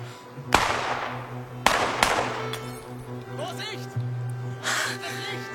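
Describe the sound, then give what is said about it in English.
Rifle shots fired at a light along a road ring out as three sharp, loud cracks, the last two close together, each with a short decaying tail, amid voices and rumbling background sound. “Rifleman, shoot at the light. When you get it, then we go.”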